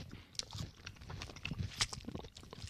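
Wet licking on a cheese ball snack coated in seasoning powder, a run of faint, soft mouth clicks and smacks at an uneven rhythm, with no talking.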